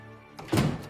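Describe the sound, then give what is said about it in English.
A door is shut in a bar, giving one dull, low thunk about halfway through. Quiet room tone comes before it, and a short fading rumble follows. “shut the door”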